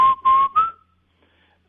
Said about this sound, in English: If I whistle those, the word for knife is, and the word for arrow is